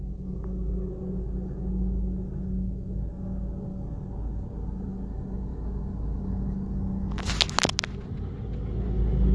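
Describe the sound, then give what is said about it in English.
Low, steady engine rumble from a street sweeper vehicle driving around in circles, continuous throughout, with a brief burst of brighter hiss and clatter near the end; no voices. “This dude that's on this freaking sweeper. I don't know what he's doing. He's driving around like he's drunk, like doing circles and stuff.”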